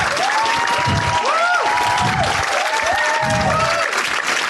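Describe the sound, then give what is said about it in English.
Loud, sustained applause from an audience welcoming a film's discussion panel to the stage, steady throughout, with gliding whoops and cheers rising and falling above the clapping. “Please put your hands together and welcome Suleika Jawad, John Batiste, and Matthew Heineman.”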